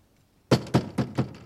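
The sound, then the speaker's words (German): Four knocks tapped out as a signal, evenly spaced, loud and dull with a sharp attack, with no other sound around them. “Also ich werde es mal mit Klopfzeichen versuchen.”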